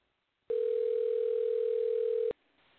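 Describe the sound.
Telephone dial tone while placing a call: one loud, steady mid-pitched tone lasting nearly two seconds, starting and stopping abruptly, alone.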